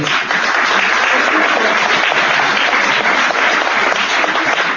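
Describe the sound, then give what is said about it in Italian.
An audience gives a big round of applause for the musician Guido Baldoni. The clapping is loud, dense and steady for the whole stretch, with no voices on top. “io vi prego di fare veramente un grosso applauso per Guido Baldoni”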